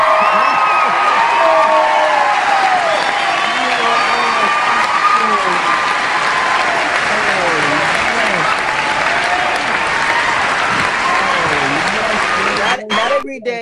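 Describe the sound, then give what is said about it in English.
Applause sequence welcoming a radio show host back on air: sustained loud clapping mixed with cheering and whooping voices, steady throughout before cutting off near the end. “Not every day Darnell gets his own applause sequence.”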